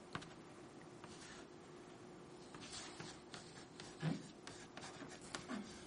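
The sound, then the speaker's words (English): Faint scratching of writing on a board during a church sermon, with soft, uneven strokes and a couple of slightly louder scrapes near the end. “I'm going to write this down on the board because I feel like we're going to get lost in all these purposes.”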